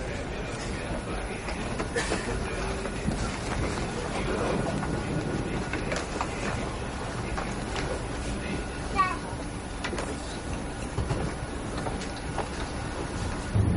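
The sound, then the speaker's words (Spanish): A train bound for Italy rolls along with a steady, subdued rumble and clatter heard from inside a carriage, continuous throughout with faint voices over it. “Lucas se monta en el tren hacia Italia y busca su asiento en el vagón.”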